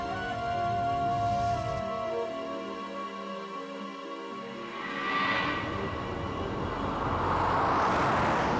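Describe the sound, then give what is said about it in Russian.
A car drives through a city, giving a faint, steady low rumble of engine and traffic that swells slightly toward the end, with no voices. “Машина едет по городу.”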